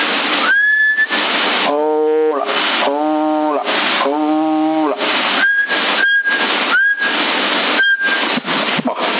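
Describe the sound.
Whistling into a CB radio microphone: short high whistled notes over heavy, constant radio hiss, with stretches of warbling, wavering tones in between.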